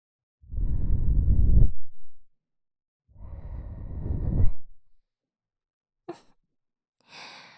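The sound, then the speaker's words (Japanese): Soft breathy blowing onto an ear to cool it: two gentle airy puffs, each lasting over a second with a short pause between, followed by a few faint small clicks. “ふうふうして、冷ましてあげないと。”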